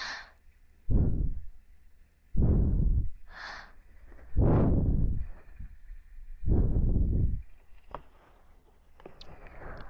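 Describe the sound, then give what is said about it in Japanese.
Soft breathy blowing onto an ear to dry it, heard as four long, gentle puffs of air. Each puff swells quickly and then fades, with quiet pauses between them and no talking. “お耳を ふうふうして乾かしてあげよう。たくさん汚しちゃったからね。”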